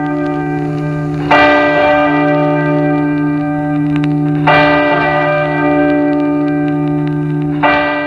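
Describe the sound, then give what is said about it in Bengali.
A bell rings out three times at a slow, even pace. Each strike is sharp and loud, and a deep ringing tone with bright overtones sustains between the strikes, with no voices. “যে কি সুন্দর কত কত ঘণ্টার ধ্বনি শোনাচ্ছেন গল্প”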